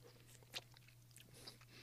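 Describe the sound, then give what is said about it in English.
A faint crunchy bite into a carrot, one sharp crisp snap followed by soft, quiet chewing and a smaller crunch a moment later. “I'm going to go back and try the carrot again.”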